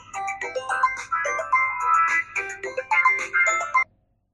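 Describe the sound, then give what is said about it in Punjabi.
A mobile phone rings loudly with a bright electronic melody of quick, repeating notes, then cuts off abruptly near the end. No talk runs over it. “Phone ਆ ਗਿਆ ਮੈਨੂੰ, ਓਏ phone ਤਾਂ ਮੇਰਾ”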